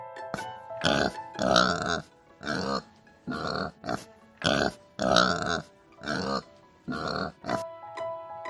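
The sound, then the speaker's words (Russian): A pig grunts many times in a steady rhythm. Each grunt is a short, throaty, nasal burst, and the grunts come in loose pairs with brief pauses between them. “Свинка говорит хрю-хрю. Хрю-хрю-хрю.”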